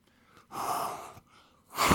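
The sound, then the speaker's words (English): A person blows breath out forcefully in two breathy, hissing bursts separated by a brief pause; the second burst is cut off at the end. “He breathed. Did you hear that? He breathed on them.”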